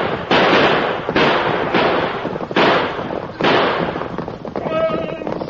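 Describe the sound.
Gunshots in a Western shoot-out during a horseback chase. Several loud, sharp bursts come in quick succession over a continuous noisy background.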